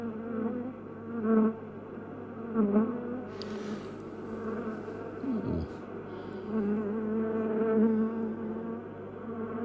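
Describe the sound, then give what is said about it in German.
Bees buzzing in a beehive: a continuous, dense, layered drone of many insects. It swells a few times as louder buzzing comes through, with no talking. “Fünftens, der Bienenkorb.”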